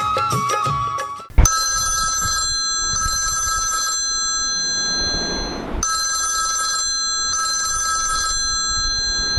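A phone rings on an outgoing call. A bright electronic ringtone sounds in paired bursts that repeat twice, with high steady tones over a faint hiss. A brief muffled rustle and a click come just before it.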